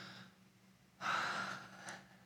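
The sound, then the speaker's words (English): A group taking one deep breath together: a single soft, breathy inhale swells up suddenly, holds briefly, then fades away with a faint trailing exhale. “Okay, everybody take a deep breath.”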